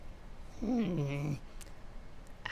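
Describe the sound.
A human voice imitates a cat with a single drawn-out, nasal meow that dips and then levels out in pitch. It lasts under a second against a quiet, faintly noisy background.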